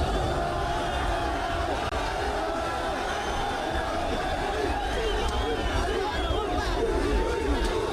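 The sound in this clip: Moroccan football fans crowd a London street in protest after Morocco's elimination, a dense, continuous babble of many voices talking and calling out at once, holding a steady loudness throughout.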